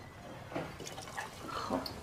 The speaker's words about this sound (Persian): این آب جوشیده است. آره، یه لیوان بریز توش.